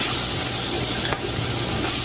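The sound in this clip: Garlic sautéing in a pan for Utica greens gives a steady, even sizzle with one brief stirring scrape partway through, with no talk.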